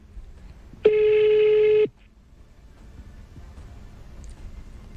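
A telephone ringing unanswered gives a single buzzy, steady-pitched ring of about one second, then stops, leaving only a faint low background.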